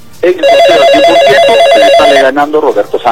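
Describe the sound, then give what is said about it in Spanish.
A telephone ringing with an incoming call gives one long, loud, warbling electronic ring, and a voice starts speaking right after it stops. “Tengo recibido otra llamada telefónica.”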